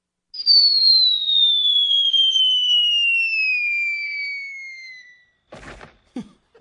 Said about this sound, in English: every single time the coyote fell off the cliff, it made the same noise. And the Pink Panther. And the Pink Panther, yeah. Hang on, let me see. I think we've got the same effects in the station.